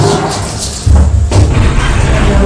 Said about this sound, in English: Right, let's shut the drawer now.